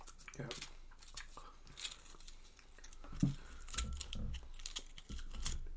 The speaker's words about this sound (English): I'm going to go for a fully formed chip as well. And get a good little scoop, because we don't really have very much left here, so we'll try to polish it off.